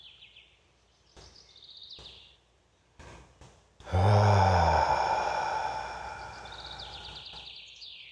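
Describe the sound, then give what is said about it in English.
A deep breath taken during a calm meditation: faint breathing sounds lead into one loud, breathy sighing exhale that swells at once and slowly fades, with soft bird chirps heard around it. “Let's take a deep breath.”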